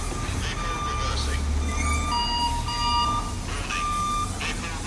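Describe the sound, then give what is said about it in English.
Truck reversing beeps on a New York street: steady, evenly spaced high electronic tones repeat over a continuous low engine rumble, with traffic noise underneath. “this is a truck backing up. A lot of sounds in New York.”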